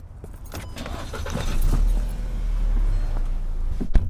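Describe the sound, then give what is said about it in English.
Road noise inside a white Jetta car: a steady low rumble that swells and then holds, with a brief sharp click near the end. “So today I'm riding along in a white Jetta with this guy, Owusu Dua.”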